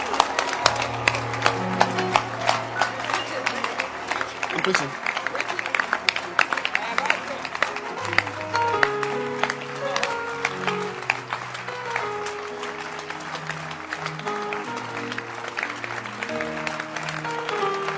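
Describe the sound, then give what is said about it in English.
Audience members clap their hands in a dense, steady stream of sharp claps, loud throughout, together with music carrying a low bass line and a voice talking over it. “Can you clap your hands?”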